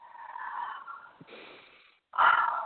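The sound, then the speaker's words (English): A group taking a deep cleansing breath together on a count of three: a long, drawn, wheezy breath, a brief silence, then a louder rush of breath. “everybody take a deep cleansing breath. Let's do that now, okay? Here we go. On the count of three.”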